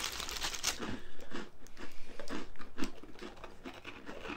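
Crisp crunching from biting and chewing two small crunchy cookies, with many rapid, uneven crackly bursts and no talking.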